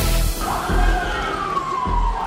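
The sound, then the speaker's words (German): Sirens wail in Istanbul: a loud, steady tone that slowly sweeps downward over a low rumble. “Sirenen heulen in Istanbul.”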